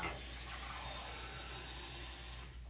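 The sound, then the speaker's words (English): Water runs steadily as the side of a chest is rinsed off, making a continuous even hiss and splash that holds throughout and thins slightly at the very end. “I'm just rinsing off the side of the chest so that it doesn't stain.”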